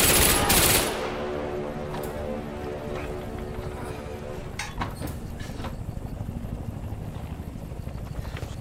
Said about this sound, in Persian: گفتم شلیک کن، صدامو نمیشنوی؟ بهشون شلیک کن، این یه دستوره.